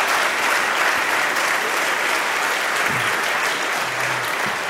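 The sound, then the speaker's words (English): Warm applause from an audience thanking and welcoming people honored at a ministry gathering, dense, even clapping that holds at a steady level throughout. “I want you all to give them a warm, warm welcome and thank you with me. Let's give them a hand.”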